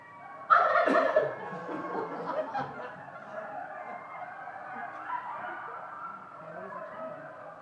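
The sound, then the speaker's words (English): Wild turkeys gobbling: one sharp, loud gobble opens, followed by softer, rattling calls that keep going at a lower level. “The turkeys and the coyotes actually were calling back and forth.”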